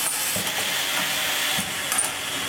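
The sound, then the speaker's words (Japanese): A Nitto Seiko screw-tightening robot at work gives off a steady airy hiss, with a few faint mechanical clicks and ratchet-like ticks scattered across it. “自動車、家電、コンピューター、あなたの生活に欠かせないものたち、それを作るために必要なロボットがいます。ネジ締めロボットです。”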